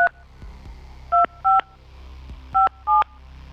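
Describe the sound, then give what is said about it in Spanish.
A number is dialed on a touch-tone telephone: short, loud dual-tone keypad beeps in an uneven rhythm, separated by short pauses and clicks, over quiet low hum. “vamos a ver, le vamos a marcar al 55, 22, 83.”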